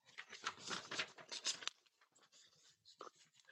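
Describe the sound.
A sheet of paper is torn to make it square, with a series of dry, crackling rips in uneven bursts and short pauses between them.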